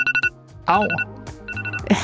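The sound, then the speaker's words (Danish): Classic Radar alarm ringtone on an iPhone: quick runs of bright electronic beeps, with a brief voice exclamation breaking in between bursts of the tone. “Det er den helt klassiske radaralarm, jeg har på min iPhone.”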